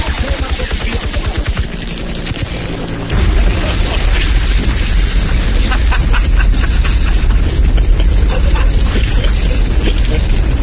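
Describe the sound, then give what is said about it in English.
Airstrike explosions form a loud, dense roar of booming rumble that holds steady through most of the stretch, after a lower mechanical drone in the opening seconds. “God, I love calling in an airstrike, man. Oh, yeah. Look at him burn.”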